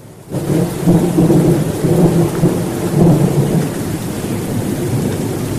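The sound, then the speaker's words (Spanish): Heavy rain shower with thunder: a dense roar of downpour sets in after a brief quiet start, with low rolling rumbles swelling several times beneath the steady rain. “Ahí hay lluvia hoy. Se pronunció el aguacero.”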